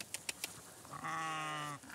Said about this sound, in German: Sie haben schon viele Zäune für die Shropshire-Schafe umgesetzt. Die fressen keine Bäume und Kabel an